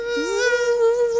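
High, thin whining buzz like a mosquito in flight. It slides up briefly at the start, then holds a steady rich drone, alone and fairly loud.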